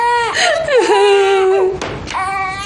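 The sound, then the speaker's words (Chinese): A baby crying in loud, wavering wails whose pitch slides up and down. The cry breaks off briefly near the end, then starts again. “不哭，娘在呢，爷在呢，你别哭了啊！”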